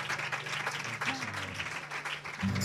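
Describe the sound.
Congregation applauding during a church worship service, a dense wash of clapping from many hands that holds steady throughout, with a low sustained tone underneath and a louder swell near the end.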